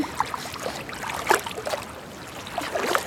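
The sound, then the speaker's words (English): Water splashes and trickles as blood is washed off skin, a faint, irregular run of small splashes and drips over steady low hiss, with no voices. “Is that blood? Here, let me wash it off.”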